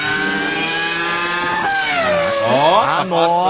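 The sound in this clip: A car engine at racing speed, around 200 km/h, revs hard as it accelerates and shifts into fifth gear. The loud whine climbs steeply in pitch, drops sharply at the gear change and then climbs again.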